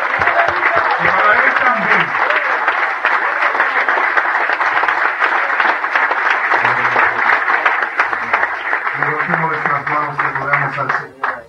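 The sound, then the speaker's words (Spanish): A church audience applauding during a service, with sustained loud clapping from many people over about eleven seconds and voices calling out over it at the start and near the end. “Un aplauso para nuestro Dios.”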